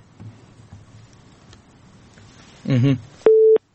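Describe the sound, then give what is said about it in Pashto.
A phone busy tone follows a call to Jordan that has been cut off: a short garbled voice fragment, then one steady, flat beep at a single pitch against a faint background. “د اردن کې اړیکه شلېدلې ده”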